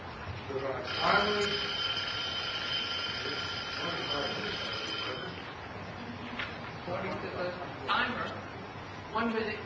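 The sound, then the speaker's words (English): A timer signals that a speaker has one minute left. Its sustained buzzing tone runs for roughly four seconds over ongoing talk, and later there are a few shorter sharp bursts. “Timer. 1 minute. Just wrap up.”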